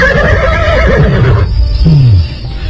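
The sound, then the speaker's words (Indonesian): A horse led across a side yard gives a loud, quavering whinny, high and sustained at first, then breaking into a lower tone that drops in pitch at the end. “Dan pada saat kembali lagi, tangannya sudah menuntun seekor kuda.”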